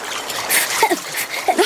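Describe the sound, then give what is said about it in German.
Water splashes as someone tumbles headfirst off a branch and plunges in, a couple of short, loud sloshing bursts standing out over a steady background wash. “bekommt dabei aber das Übergewicht und plumpst kopfüber ins Wasser.”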